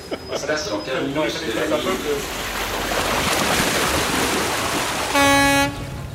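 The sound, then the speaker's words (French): A train pulls into the Ouchy terminus of the line with a broad rumbling hiss and gives one short, steady horn toot near the end. A voice talks at the start. “Voilà, on va arriver maintenant à Ouchy. Voilà. Terminus de la ligne.”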